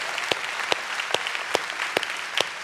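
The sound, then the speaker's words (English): Church audience applauding: steady, even clapping with sharper claps standing out at regular intervals. “Come on, church, let's put our hands together and welcome each other today to church.”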